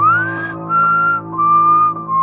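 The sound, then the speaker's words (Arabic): Someone whistles in a corridor leading to an elevator, heard from a basement during a night shift. A few clear, sustained notes open with a rising glide and sit over a steady low hum. “فجأة سمعت صوت تصفير قادم من الرواق المؤدي نحو المصعد.”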